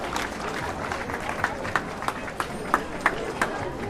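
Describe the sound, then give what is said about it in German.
A protest march sets off: steady crowd noise with scattered sharp claps or steps that recur at short, uneven intervals. “Die Demo läuft los.”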